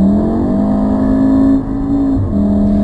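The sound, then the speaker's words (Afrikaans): A Volkswagen Golf R with a 2-litre turbo engine and all-wheel drive accelerating hard: a loud, steady engine drone whose pitch climbs gradually, dips briefly as if shifting gear, then picks up again. “Golf R, Volkswagen Tour 206 kW uit die 2 liter turbo teenoor die GTI se 162. 0 na 100 in 5 sekondes.”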